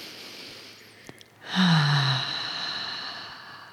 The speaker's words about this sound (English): take a nice full breath in through your nose and let it out your mouth.